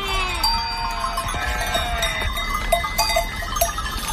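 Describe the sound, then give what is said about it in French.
A sheep bell tinkles at night in a few faint, scattered clinks, with a soft lamb bleat near the start, over a low steady background. “La nuit, calme et belle, résonne par moments du tintement d'une sonnaille ou du bêlement d'un agneau, inquiet de savoir si sa mère est toujours là.”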